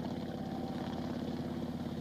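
A helicopter in flight, heard by passengers inside it: a faint, continuous, even drone of rotor and engine with a dense low rumble and no talk.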